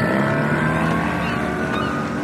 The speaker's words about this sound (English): We're in the Machine City docks, surrounded by boats.